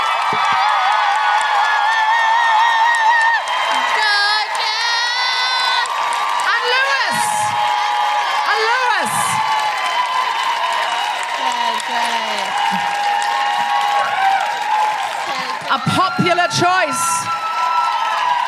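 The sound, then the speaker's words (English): A crowd gives sustained applause mixed with loud woohoo cheering and high whoops, the clapping steady and the shouts rising and falling throughout. “Could you please put your hands together and make incredible woohooing noises for Tolu Mackay?”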